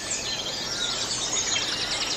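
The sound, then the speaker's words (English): Many birds sing together in a European dawn chorus, a dense, continuous tangle of chirps, trills and whistles, with one bird's rapidly repeated high phrase standing out later on. “my most sincere thanks to the birds of Europe for singing.”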